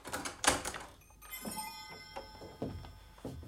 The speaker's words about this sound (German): Er arbeitete, bis ihn ein Klopfen am Werkstattfenster aufschauen ließ.